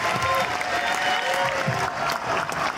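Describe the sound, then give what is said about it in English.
Audience applause at a live event in Washington DC: dense, steady clapping that fills the whole stretch at an even level, with a faint murmur of crowd noise underneath. “let's have another hand for Stevie Ray from Seeing the Holy Atheist.”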